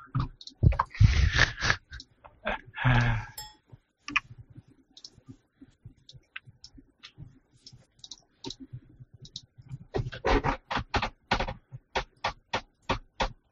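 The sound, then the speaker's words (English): An office chair creaks as someone leans farther and farther back, giving many short, sharp creaks and clicks in irregular bursts that resemble keyboard typing. “Wow, that's a noisy chair. That was a chair? I thought that was a keyboard. No, that was his chair as he was leaning farther and farther back.”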